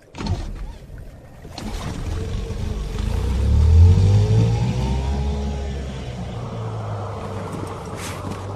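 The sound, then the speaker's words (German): An engine revving as a vehicle accelerates, its low roar swelling and climbing in pitch for a few seconds, then holding a steady drone before easing off gradually. “Dann gib mal Gas”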